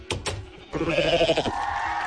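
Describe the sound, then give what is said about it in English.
A goat bleats as the prize revealed behind a game-show door: two short clicks, then one loud, nasal, wavering bleat that trails off into a steadier tone. “Would you look at that? It's one of the goats.”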